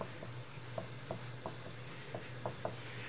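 Writing with a pen: soft, scratchy strokes and small ticks come in many short, uneven movements, faint over a low steady hum.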